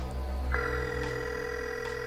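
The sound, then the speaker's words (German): A mobile phone rings through an unanswered call. The steady electronic ringing tone starts about half a second in and holds unbroken to the end over a low background hum. “Er wartete ungeduldig. Doch der Anführer der drei Fragezeichen nahm den Anruf nicht entgegen. Dann endlich sprang die Mailbox an.”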